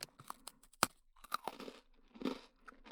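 Crunching and chewing while eating a snack: quiet, close bites in irregular bursts, with a few sharper crunches standing out between softer chewing.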